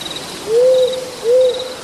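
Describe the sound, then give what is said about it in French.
Tawny owl hooting: two low, drawn-out hoots with a brief rising onset, evenly spaced, over a steady high insect chirring. “La Chouette des Bois propage depuis bien longtemps une sourde terreur dans nos campagnes.”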